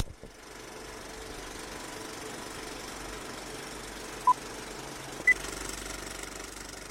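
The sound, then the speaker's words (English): A film projector warming up with its reels spinning gives a faint, steady low mechanical whir with a slight rhythmic knock, broken by two brief tonal blips near the end. “The projector is warming up, the reels are spinning, and Flick Fix starts right now.”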